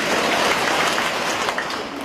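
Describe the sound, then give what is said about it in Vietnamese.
An audience clapping in response to a speaker's call, a dense, steady wash of many hands at an even loudness throughout. “Ai là người vất vả gánh nặng vỗ ba cái?”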